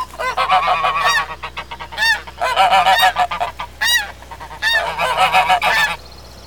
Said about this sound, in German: Und da möchte sich auch noch eine ganze Gänsefamilie bei uns vorstellen.